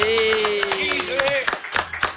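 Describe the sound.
Studio audience applause welcomes a guest on a TV show. Scattered claps sound under a prominent voice with held tones, and the clapping grows sharper and more distinct in the second half.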